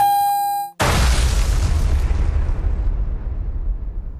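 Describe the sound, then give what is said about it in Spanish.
Bombs explode in a single heavy boom with a broad burst and a long, rumbling decay. A steady electronic tone sounds just before it. “Es tiran bombas.”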